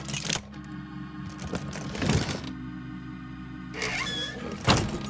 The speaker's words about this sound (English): It's some kind of box. Maybe if we try and open it up?